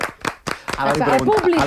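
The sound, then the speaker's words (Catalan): An audience at a live show applauds the sound technician. The brief, uneven clapping fades quickly as people start talking. “hem de donar-li un aplaudiment al tècnic. Eh? Sí, ara li aplaudirem. Que està aguantant, vols que aplaudim? De veritat. Que aplaudeixi també al públic.”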